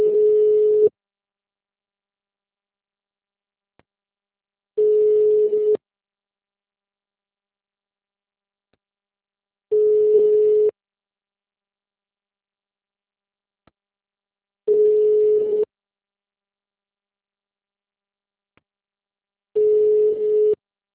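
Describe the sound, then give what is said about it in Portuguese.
Ringback tone on a phone call to a city hall, five evenly spaced one-second beeps at a steady low pitch with about four seconds of silence between them, heard alone without talk. “tô ligando na prefeitura lá de novo, viu?”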